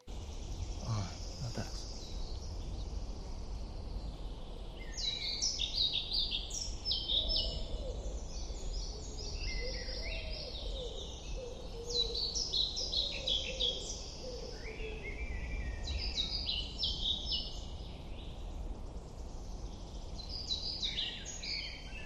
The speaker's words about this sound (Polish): mam muchówkę żołobną teraz z drugiego podejścia